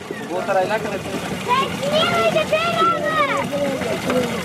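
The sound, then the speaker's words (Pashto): Water splashes and gurgles as children fill cans from a water tank built by an aid organization. The wash of water runs steadily throughout, with many children's voices chattering over it. “دلته ماشومان د اوبو له هغې ټانکۍ څخه ډبې ډکوي چې په سیمه کې د یوې مرستندوی موسسې لخوا جوړه شوې ده.”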